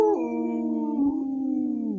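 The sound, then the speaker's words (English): A Minnesota wolf howls in one sustained, harmonic-rich cry at a steady mid pitch for about two seconds. It dips slightly at the start and sinks lower as it fades at the end. “In this portion of the show, we like to bring awareness to our Minnesota wolf population. Say no to the hunts.”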